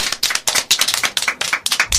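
Audience applause at a school event, with many quick, sharp claps in an uneven but steady stream that runs alone for the whole moment, without talk.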